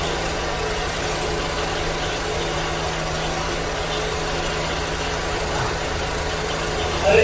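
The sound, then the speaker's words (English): A generator runs with a steady, unbroken mid-pitched engine drone and hum that stays at an even loudness throughout. “Yeah, I was hoping the generator would go off.”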